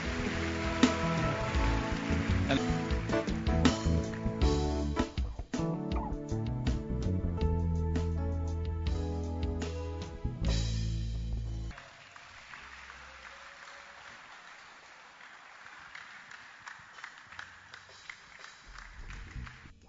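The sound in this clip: Congregation clapping hands at a church service, a dense, steady patter. It plays under loud music at first and carries on alone after the music cuts out midway.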